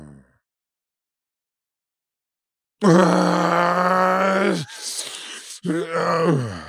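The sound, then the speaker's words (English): A voice imitates snoring with sleep apnea after a silent start: a long, strained voiced groan, then a rough, breathy snort, then another loud groaning snore. “Like sleep apnea? Terror. He was actually snoring himself back to life.”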